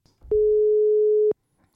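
A telephone line tone signals an incoming call: one steady, mid-pitched electronic tone that holds evenly for about a second and then stops abruptly, with no voices.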